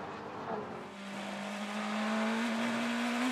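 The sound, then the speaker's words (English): Sports racing car engine during practice at the Laguna Seca circuit, near the corkscrew. The faint, steady engine note climbs gradually in pitch as the car accelerates, and no other sound competes with it. “so going faster again now is Philip Eng. He had to go around the outside of a car up at the corkscrew.”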